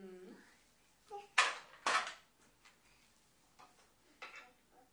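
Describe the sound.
Small metallic clicks as a neck nut is screwed on by hand: two sharper clinks close together, then a few faint ticks and scrapes.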